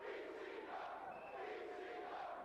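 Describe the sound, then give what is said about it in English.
Roaring crowd at a 1995 ECW wrestling event, a dense, unbroken wall of cheering and yelling that stays loud from start to finish. “Oh, and this crowd is going nuts. ECW. ECW.”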